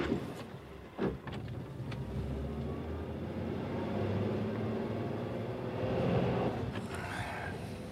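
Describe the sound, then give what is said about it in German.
Low, steady car rumble as the vehicle drives slowly through side streets toward Kensington High Street, a broad engine and road drone with a brief thump early on and a slight swell toward the end. “Fahren Sie jetzt bitte langsam zur Kensington High Street. Nur Seitenstraßen. Aber langsam.”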